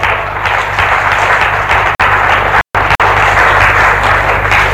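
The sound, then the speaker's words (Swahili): Sustained applause from an audience of dignitaries during a political speech on building socialism: loud, dense clapping that runs evenly throughout, broken only by a couple of brief dropouts. “mimi nafurahi mnapiga makofi.”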